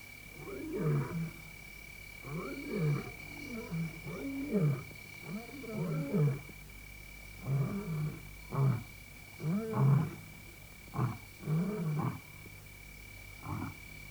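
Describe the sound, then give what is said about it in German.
Lions roaring in the wild: many deep, grunting roars in a loose rhythm, rising and falling in bursts, over a faint, steady high whine that runs throughout. “Löwenstimmen tragen deutlich über eine Entfernung von 8 Kilometern. Aber sie hatten uns gehört. Und sie waren nun unterwegs.”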